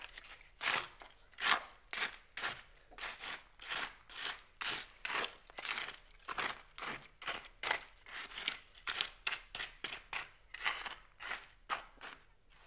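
A shovel digs a rectangular pit in the ground, making many steady, evenly spaced crunching scrapes one after another with no talk over them.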